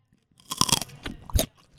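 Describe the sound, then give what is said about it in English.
Crunchy celery being bitten right into the mic, giving loud, crisp crunches and a few wetter chewing crackles in quick succession, with no talking. “Bite into that celery right into the mic right now. ASMR right there.”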